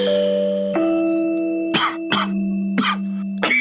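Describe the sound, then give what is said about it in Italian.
Four short, dry, irritated coughs break out in a quick, uneven series, each a harsh burst over a steady sustained tonal background. “Come faccio a dormire se tossisci in modo secco e stizzoso anche?”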